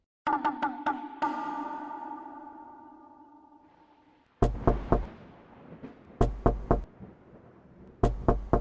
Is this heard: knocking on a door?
yes

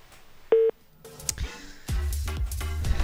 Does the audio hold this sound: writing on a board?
no

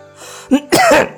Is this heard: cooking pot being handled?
no

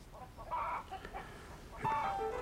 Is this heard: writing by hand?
no

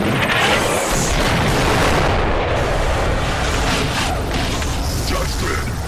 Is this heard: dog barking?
no

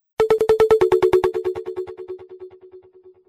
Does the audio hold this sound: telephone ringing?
yes

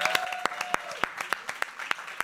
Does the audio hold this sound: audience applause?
yes

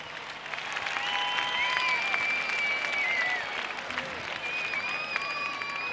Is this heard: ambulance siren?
no

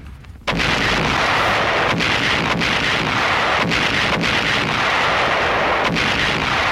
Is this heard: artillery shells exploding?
yes

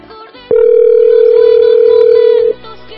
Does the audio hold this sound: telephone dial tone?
yes

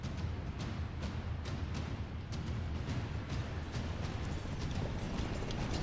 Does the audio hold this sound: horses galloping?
yes

